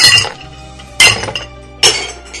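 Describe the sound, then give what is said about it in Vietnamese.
Crockery bowls smashing: three sharp, bright clinking impacts, the second and third closer together, each ringing with a shimmering metallic-glassy decay over a faint low hum. “Nó chỉ muốn nghe tiếng đồ vật bị đập bể.”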